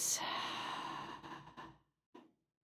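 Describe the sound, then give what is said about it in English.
A deep exhale pushed out through the open mouth in a breathing exercise: a long, steady, breathy rush that slowly fades into silence, followed by a brief faint breath sound. “Breathe in through your nose, fill your belly all the way up. Open your mouth and send it all out.”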